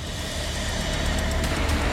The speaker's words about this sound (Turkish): Pekala, vinç çekmeye başlıyor.